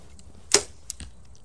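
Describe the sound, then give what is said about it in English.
Arrow shot from a Prime Form 34 bow with a stiff riser: one sharp, bright snap of the release, followed moments later by a couple of fainter, duller clicks. “I haven't shot this good in a decade. I'm gonna attribute it to the stiffness of the riser of this Prime Form 34.”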